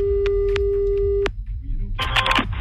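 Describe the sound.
A telephone ringing tone on a call line: a steady single-pitched tone with a few clicks runs for just over a second, then stops and gives way to short bursts of noisy clatter.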